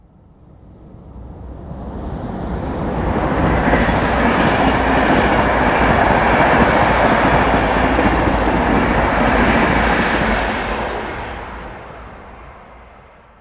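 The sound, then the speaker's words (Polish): A passenger train passes on a track with no noise barriers. Its loud, broad rumble builds over a few seconds, holds steady at full strength, then fades away, with no voices. “Słyszymy pociąg osobowy przejeżdżający trasą bez zamontowanych ekranów akustycznych.”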